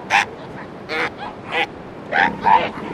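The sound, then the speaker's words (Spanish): Newborn elephant seal pups cry out in fright while crowded onto a narrow strip of beach below a cliff at high tide in Patagonia. Five short, high yelping calls come in uneven bursts over a steady background. “Con la marea alta, cientos de elefantes marinos se amontonan en una estrecha franja de playa al pie de un acantilado. Las crías recién nacidas gritan asustadas.”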